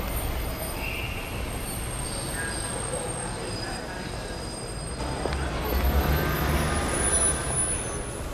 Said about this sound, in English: Artie sitting on a platform with the luggage as a train thunders into the station.